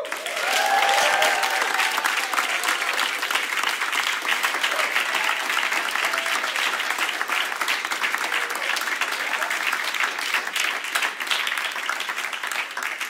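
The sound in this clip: Sustained, loud applause from a large church audience welcoming a speaker to the stage, dense steady clapping mixed with crowd noise that continues for about thirteen seconds without speech over it.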